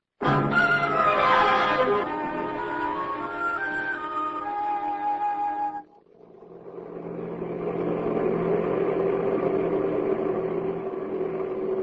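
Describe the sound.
A car engine runs while driving. A loud mechanical drone dips sharply partway through, then builds back into a steadier, lower hum that holds to the end.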